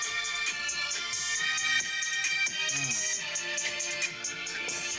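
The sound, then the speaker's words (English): A beat made on a phone plays back: a continuous electronic instrumental with bright sustained tones and steady rhythmic pulses, loud and unbroken, with no voices over it. “But I literally made this beat on my phone. So this is it right here.”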